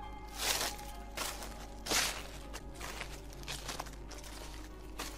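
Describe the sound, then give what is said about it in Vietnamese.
Rustling footsteps approach in the dark: a few soft, crunching steps, each a brief burst of dry rustle, faint and irregular over a low steady hum. “Gần chỗ hai đứa chúng nó ngồi bỗng vang lên tiếng loạt xoạt, giống như kiểu là ai đang càng lúc càng đi đến gần.”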